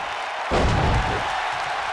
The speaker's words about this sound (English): Seth Rollins with another slam.